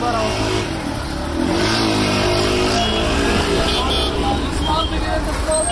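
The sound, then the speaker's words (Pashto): Car traffic rumbles through city streets in Afghanistan during Eid, a steady, dense wash of engine noise with cars revving and passing, never pausing. “په خارونو کې د موټرو د تک را تک شور”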